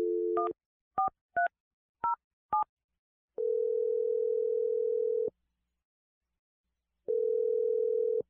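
A telephone is dialed. A short dial tone leads into five quick keypad beeps at different pitches, followed by two long, steady ringing tones with a pause between them.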